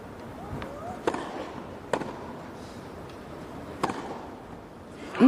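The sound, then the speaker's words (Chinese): Sharp, crisp pops of a tennis ball being struck on a second serve in a professional match featuring Czech player Krejčíková. A few brief hits stand out, spaced apart over a steady low background hiss. “刚才的抛球也是出现了一些问题，重抛之后的发球还是错区了。看一下第二发球”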